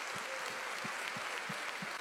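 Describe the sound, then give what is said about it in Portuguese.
Faint applause from a church audience, a soft wash of clapping with a steady low beat pulsing about three times per second underneath, without talk. “Um aplauso em nome de Jesus.”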